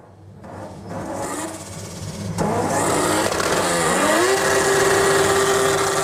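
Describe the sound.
A modified Japanese car engine revs: a loud, rough drone builds, dips, then climbs into a steady high whine that holds to the end.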